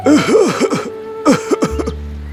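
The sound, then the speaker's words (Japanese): A performer voices labored heavy breathing for an old tree struggling to breathe polluted air in a fairy tale: two clusters of rough, groaning gasps with wavering pitch, loud and close, with no words spoken. “重そうな呼吸をしているね。”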